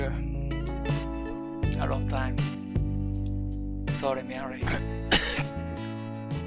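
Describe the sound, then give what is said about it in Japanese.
A few coughs and throat-clearing bursts break through people talking, over a steady, sustained tonal music bed. “お前、ちょっと咳が出た。”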